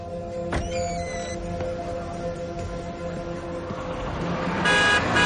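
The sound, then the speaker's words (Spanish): A taxi horn honks on a city street: a short toot early on and then a louder, sustained blast at the end, both over a constant wash of traffic noise. “Un taxista le pita enfadado por cruzar sin mirar.”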